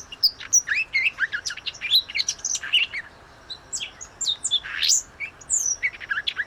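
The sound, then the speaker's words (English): A young banded wren calls in a string of many high, thin chirps and short whistled notes, delivered in irregular bursts with brief gaps, fairly faint over a quiet background and without any talk. “This is a young banded wren. So it's kind of like a recording of a young child that's just learning how to talk.”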